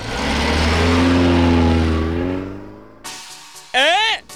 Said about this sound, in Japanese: あ、タクシー、ほら急いで乗って。